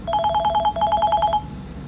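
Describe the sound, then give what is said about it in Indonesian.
A telephone rings for an incoming call: two short bursts of rapid, bright electronic trilling with a brief gap between them, then quiet. “Wah, ada penelpon baru nih”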